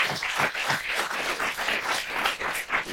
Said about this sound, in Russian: Классно. Супер. Похлопаем. Классно, ребята.